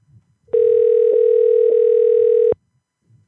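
Steady telephone dial tone heard while placing a call, a single unbroken hum of constant pitch lasting about two seconds, loud and alone, with only faint low rustling before and after.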